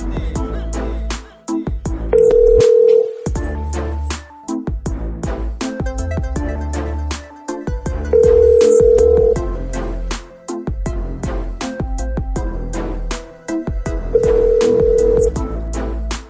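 A telephone ringing during a phone call: three long, steady ringback tone bursts spaced about six seconds apart, heard over loud rhythmic music.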